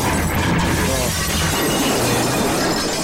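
Things are being smashed to pieces, heard as loud, continuous crashing and shattering that forms a dense, unbroken wall of breaking noise from start to finish.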